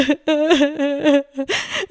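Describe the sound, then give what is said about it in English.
A voice imitates loud, wailing crying: several choppy, sobbing vocal bursts with short gaps, ending in a rougher, more strained wail. “I was crying and it wasn't even just like a little, like a teardrop, single tear. No, no. I was wailing.”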